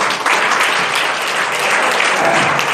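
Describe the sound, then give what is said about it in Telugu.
An audience claps after a meditation session, producing a dense, even wash of applause that holds at a steady level for the whole stretch without fading. “ఒకసారి చప్పట్లు కొట్టాలి”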